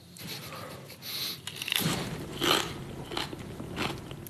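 Raw cabbage being bitten and chewed in a few crisp, crunchy bursts with quieter mastication between them, fairly faint and with no talk.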